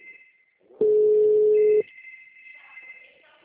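A telephone ringing tone heard over the line: one loud, steady, low beep lasting about a second, with faint high-pitched tones before and after it.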